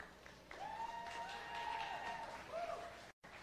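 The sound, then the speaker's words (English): Faint audience applause greets a presenter at a live talk evening: a steady, soft wash of clapping with a drawn-out tonal cheer riding over it, cut off abruptly near the end. “let's put our hands together for Chris Quiñones”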